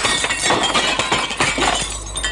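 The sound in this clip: Porcelain crashing and shattering, a china-shop smash. A dense, noisy burst of breaking and clinking shards continues loudly for about two seconds, with no voices.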